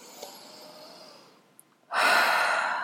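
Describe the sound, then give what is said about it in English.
A deep breath drawn in during a guided calming ritual: after a faint, quiet stretch, a loud, steady rush of air starts abruptly and holds to the end. “Take a nice deep breath into that.”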